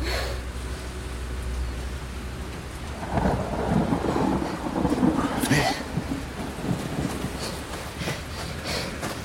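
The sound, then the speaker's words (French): Steady rainfall makes a dense, continuous hiss throughout, with a low rumble swelling louder in the middle before easing back to the even patter. “Comment peut-on détester la pluie ? Je n'ai jamais rien vu d'aussi beau, regardez.”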